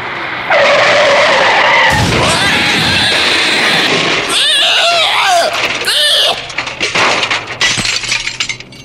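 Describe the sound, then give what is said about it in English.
A car skids on a darkened dirt road and strikes an animal. A long, loud tire screech leads into a harsh, breaking crash, followed by scattered clattering and scraping debris that tapers off unevenly. “as they drive down one stretch of a darkened road, they accidentally hit a wayward chupacabra”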